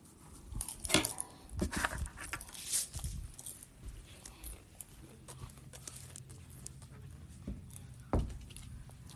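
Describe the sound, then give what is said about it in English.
A dog pants and moves around a friend's house. Soft, irregular breathing mixes with light scattered paw taps and a few sharper knocks, loudest early on and quieter toward the end. “oh, there's a dog here.”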